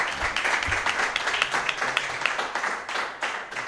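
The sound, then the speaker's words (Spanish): Applause from an audience honouring a guest at a local celebration in Tudela, a dense, steady patter of many hands clapping that runs evenly through the short clip. “Fuerte aplauso para Leo”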